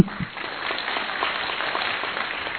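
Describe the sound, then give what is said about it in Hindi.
Audience applause at a gathering of doctors from Gwalior, with a steady wash of many hands clapping. It is fairly faint and muffled, holding an even level throughout. “तालियां जोर से होनी चाहिए”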